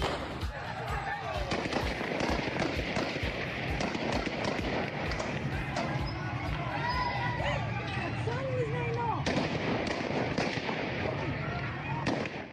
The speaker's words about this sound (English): That was the sound of a peaceful demonstration held a couple of weeks ago in Afghanistan,